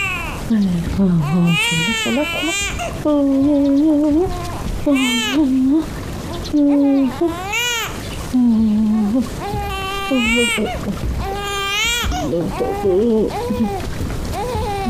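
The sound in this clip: A child crying hard: loud, sustained wailing and sobbing with a wavering, bending pitch, continuing in long repeated bursts with only brief breaths between them.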